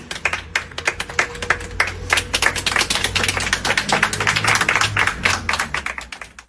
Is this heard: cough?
no